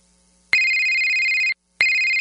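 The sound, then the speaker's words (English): Telephone ringing with a bright, high electronic tone: one long ring lasting about a second, a short silent gap, then a second ring beginning, each steady and loud. “Don't you dread that phone call?”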